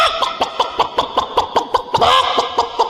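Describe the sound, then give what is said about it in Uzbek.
Hens and roosters clucking in a rapid, steady run of short, sharp clucks, with a slightly louder, busier burst near the end. “Tovuqlar mayli, xo'rozlar paydo bo'lishni boshladi.”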